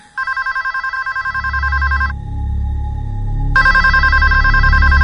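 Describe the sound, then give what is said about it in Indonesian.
A telephone rings loudly in bright, rapidly trilling bursts: one long ring of about two seconds, a short pause holding a faint tone, then the ringing starts again, all over a low steady rumble. “telepon itu berbunyi lagi.”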